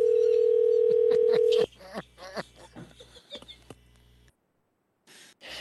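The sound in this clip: Steady telephone dial tone on a prank call, held briefly and then cut off. People talk over the line after it, followed by a short silence.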